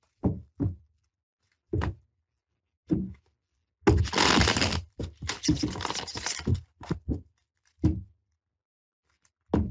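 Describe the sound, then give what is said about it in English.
Tarot cards are shuffled and drawn. A few separate soft taps come before a dense riffling burst in the middle, and more light taps and card knocks follow. “Let me pull some cards for you.”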